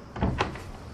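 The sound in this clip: Locked door being tried: two short, dull rattles of the handle and frame in quick succession, then a quiet low background.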